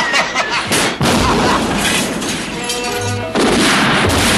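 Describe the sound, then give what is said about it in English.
A gun-battle sound effect in a comedy drama. A few sharp, loud bursts and booms cut through a continuous crackling clatter of gunfire. “The gun battle continues to rage.”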